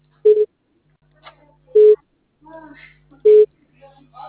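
A telephone busy tone: three short, steady low beeps evenly spaced, with faint scattered sounds in the gaps between them.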